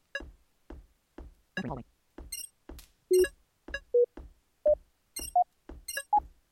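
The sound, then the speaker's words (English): Video game audio cues marking openings along a hallway: a steady run of evenly spaced soft knocking ticks, joined by several short tonal pings at differing pitches. “if you just listen specifically for the sound that indicates an opening, you're going to be able to hear those pretty well.”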